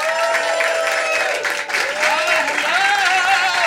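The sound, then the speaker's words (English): Audience applause greets a comedian, a full, steady roar of clapping lasting nearly four seconds, with cheering voices mixed into the crowd. “Everybody give it up for Just Saying with Justin Martindale.”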